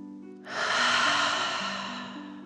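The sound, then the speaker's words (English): A single slow, deep breath during a relaxation breathing exercise. An airy rush swells in after a short pause, then slowly fades, over soft, steady sustained tones. “Breathe like a dragon, in and out.”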